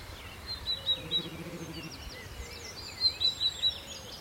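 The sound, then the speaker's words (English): A willow warbler sings faint, high, sweet phrases in woodland on Sugar Loaf mountain, while a voice hums a low, rapid imitation of the song; a second bird phrase follows. “So you can pick up the willow warbler.”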